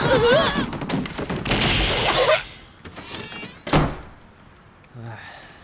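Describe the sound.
A door bangs open with one sharp, heavy thud, coming after a stretch of people talking and followed by quieter sounds.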